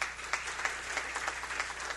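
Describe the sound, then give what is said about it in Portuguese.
Applause at a municipal council session as a local culture official is welcomed: a faint, dense wash of many hands clapping, steady throughout with small irregular peaks. “Uma salva de palmas desde já.”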